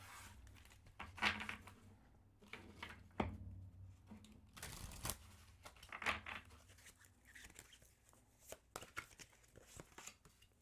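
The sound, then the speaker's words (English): Soft papery rustles and flicks as oracle cards are shuffled and pulled during a reading, coming in several irregular, faint bursts with quiet gaps between. “We'll start off by pulling some intuitive cards.”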